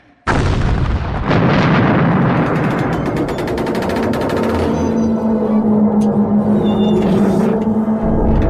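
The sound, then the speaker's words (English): A torpedo fired from a vessel and exploding on impact: a sudden loud blast, then a second burst and a heavy rumbling roar with rapid rattling crackles, settling into a sustained low hum, with no voices. “Firing torpedo. All hands, brace for impact! I repeat, all hands, brace for impact!”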